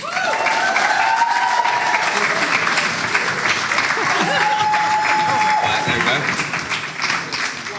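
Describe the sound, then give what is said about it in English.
Sustained audience applause welcomes three panelists at a live recruitment event in London. The clapping is dense and loud and thins slightly toward the end, with voices speaking over it. “But let's welcome on and give a big hand for our panelists today, Claire, Ben and Harry.”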